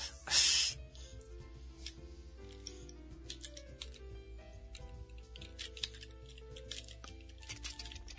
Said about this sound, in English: I'm typing! Stop insulting my typing!